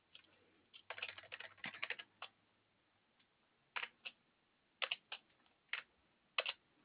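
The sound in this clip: Typing on a computer keyboard: faint, irregular keystrokes come in quick clusters with pauses between them, and no voices are heard.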